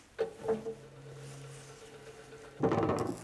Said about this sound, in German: Öffnet die Luken.